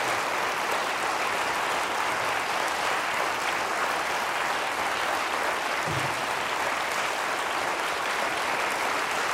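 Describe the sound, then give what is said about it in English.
A studio audience gives a standing ovation, with sustained, dense applause from a large crowd that stays loud and even without a break. “Well, our audience here in the studio giving a standing ovation to Brian Colfax.”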